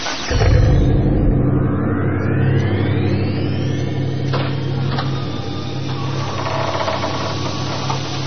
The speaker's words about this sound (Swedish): Radiogodis.se aktiverar tidsmaskinen och åker bakåt i tiden.